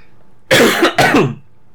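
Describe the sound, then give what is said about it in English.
A person coughs twice in quick succession: two loud, harsh bursts with a rough, throat-clearing quality, then a low background hum. “I've got a cough”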